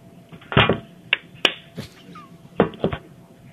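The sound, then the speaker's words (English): Hands clap in front of a sleeping person's face, a few sharp, quick claps in a short, irregular series of crisp slaps. “Just clap in his face two times, real quick.”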